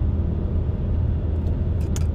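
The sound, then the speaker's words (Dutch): A car drives along a road past a house, giving a low, steady rumble of engine and tyre noise that stays even throughout with no talking. “En dan rij ik zo weer langs het huis van A.L. Snijders.”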